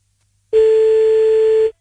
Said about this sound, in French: Attends, je le rappelle.